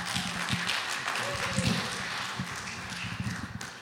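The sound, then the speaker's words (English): Audience applause welcoming a pastor: a steady, dense wash of clapping with some low thumps, holding at an even level from start to finish. “Put your hands together as we welcome Pastor Jim Shadler today.”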